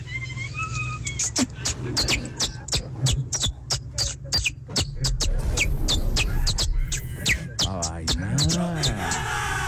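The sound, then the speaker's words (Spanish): A person imitates a canary's song with a voice: rapid, high, whistled chirps and trills that run continuously for about ten seconds and end in wavering warbles. “Yo trato de imitar a un canario.”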